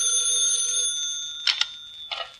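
A telephone ringing: a sustained metallic bell tone that fades out, followed by a few short, bright bursts of ringing.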